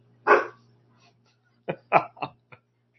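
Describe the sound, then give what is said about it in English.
A dog barks indoors by an open door: one bark, a pause, then a quick run of four shorter barks, over a low constant hum. “That's the dog. She's bothering me. The door is literally open.”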